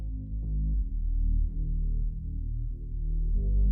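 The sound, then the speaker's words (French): Isolated bass line pulled from a song by AI, a synthetic tone mixed with electric bass, playing a steady run of deep, sustained notes that shift gently in pitch without a break. “Donc voici la basse qui d'ailleurs ne rentre qu'au moment du chant.”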